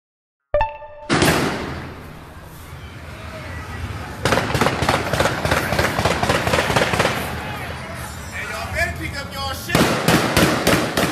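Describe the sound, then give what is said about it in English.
Gunfire as people shoot at a bank ATM during neighborhood looting: a sharp crack, then many rapid, loud shots in dense bursts with brief lulls between them. “They shooting a whole lot at the ATM, so I gotta stay a safe distance.”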